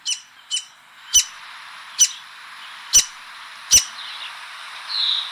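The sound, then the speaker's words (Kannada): A mother bird calls while feeding her chicks in the nest, giving six sharp, high chirps at slightly uneven intervals. A faint, thin high sound lingers near the end. “ಈಗ ನೀವು ಕೇಳಿದ್ದು ಗೂಡ್ನಲ್ಲಿ ಕೂತ್ಕೊಂಡು ತನ್ನ ಮರಿಗಳಿಗೆ ಗುಟುಕನ್ನು ಕೊಡುವಾಗ ತಾಯಿ ಹಕ್ಕಿ ಹಾಡಿದಂತ ಕೂಗು ಅಂತ ಹೇಳ್ಬೋದು.”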